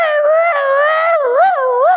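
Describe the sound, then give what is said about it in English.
A human voice imitates a dog howling, one long, loud, sustained tone that holds steady and then wobbles up and down in pitch toward the end. “I mean, this dog was like,”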